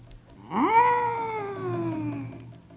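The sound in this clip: A voice imitates a cat's meow with a single drawn-out cry that swoops up quickly and then slowly sinks in pitch as it fades, heard alone without talk.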